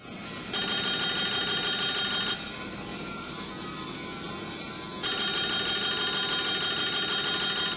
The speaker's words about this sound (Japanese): 佐藤さんの工場に電話がかかってきました。